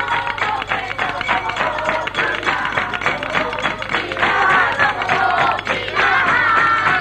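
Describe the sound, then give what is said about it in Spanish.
A crowd at a zambomba street party at a house on Pozo Olivar street in Jerez, with dense rhythmic hand clapping and many voices mixing throughout at a lively, constant level. “Oyen la zambomba de Pozo Olivar número 5. Decenas y decenas de personas, niños con los ojos abiertos, disfrutando.”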